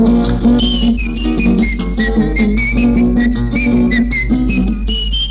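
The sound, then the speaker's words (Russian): A whistled tune, the sound of whistling through a hole in the side, runs as a loud, wavering melody over steady instrumental accompaniment in a children's song. “Дыркой в боку свистел.”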